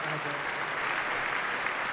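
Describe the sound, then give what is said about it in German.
An audience at the Kulturpalast in Dresden, at an evening with the Dresden Philharmonic, applauds as a comedian takes the stage, a steady, full wash of clapping that stays even throughout. “vielen Dank für den Applaus.”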